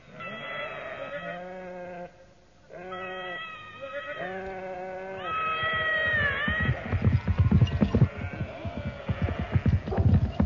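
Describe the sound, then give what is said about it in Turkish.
A flock of sheep bleating: a few wavering, nasal calls in succession, some overlapping, giving way to a denser, rougher stretch of noise with scattered bleats toward the end. “Şu koyun sürüsü de önümüze nereden çıktı? At yol bulamıyor.”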